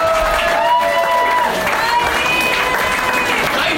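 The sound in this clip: A studio audience applauds and cheers for a quiz-show contestant who has just been knocked out. The clapping and crowd noise stay steady and fairly loud for the whole stretch.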